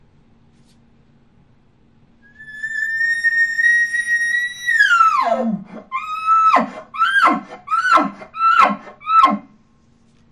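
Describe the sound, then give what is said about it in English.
Imitated elk location bugle by a human caller: a long, high sustained whistle that slides sharply downward, then a quick string of short, clipped grunting bursts at the very end, loud and alone. “Now I'm going to combine that with my location bugle. I'm going to locate out, and I'm going to throw the grunt at the very end of it.”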